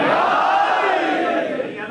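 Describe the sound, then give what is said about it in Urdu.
A crowd at a religious sermon gathering shouting the Naara-e-Haidari slogan in unison, a loud, sustained collective cry with long held voices that eases slightly toward the end. “اچھا تھوڑے دیر شیعہ بن جائیے, لگا دیجیے نعرہ حیدری.”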